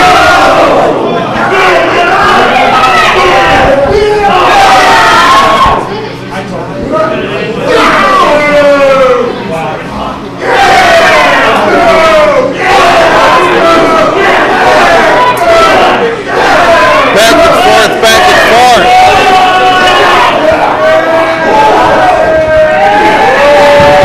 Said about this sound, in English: Crowd loving it.